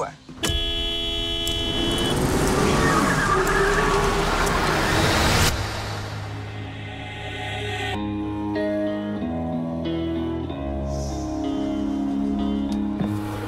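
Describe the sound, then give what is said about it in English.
A car horn blares in one long, loud sustained honk lasting about five seconds amid road traffic, then gives way to quieter tonal sounds. “You know what a courtesy tap is, young man? Sounds like this. It's light. It's friendly.”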